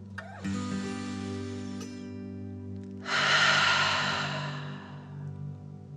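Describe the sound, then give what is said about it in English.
A deep breath taken in and then let out through the mouth: a soft, rising inhale followed after a pause by a louder, longer, airy exhale that gradually fades, over a faint steady low hum. “Ready? Deep breath in and out.”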